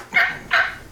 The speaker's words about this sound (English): That's the sound of a turkey.